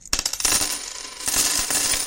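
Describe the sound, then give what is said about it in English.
A handful of coins drops and scatters, giving a quick burst of bright metallic clinks and jingles that fade and then pick up again in a second, shorter cluster. “I'm going to give you this handful of coins and throw you out the door.”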